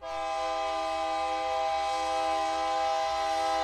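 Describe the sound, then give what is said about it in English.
A horn blares from a commuter train running between Albuquerque and Santa Fe, New Mexico, one loud, steady, multi-toned chord held without a break through the whole clip. “That's our train that runs between central New Mexico, where Albuquerque is and where we live, north to Santa Fe, our state capital.”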